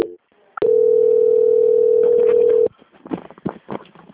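Telephone call-transfer tone as a caller is passed to a quality-control attendant: a brief click, then one loud, steady, mid-pitched tone held for about two seconds before it cuts off, followed by faint irregular noises.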